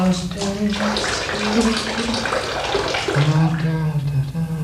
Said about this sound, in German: Der Hahn, der tropft noch immer.